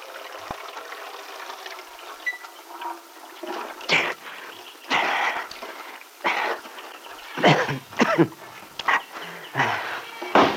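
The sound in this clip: Uneven bursts of splashing, pouring water come from someone washing their head outdoors, several separate gushes broken by short quiet gaps.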